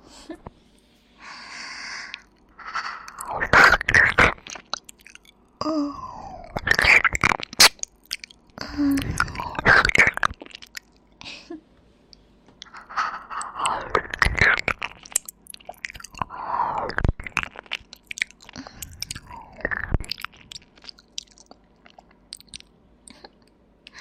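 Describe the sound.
Chewing and crunching of newly bought candy, with many irregular moist bites and crackling bursts that come in clusters over about twenty seconds, with no talk.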